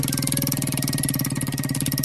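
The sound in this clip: A prize wheel spinning, its pegs striking the pointer in a rapid, steady stream of ticking clicks that keeps an even pace and loudness throughout.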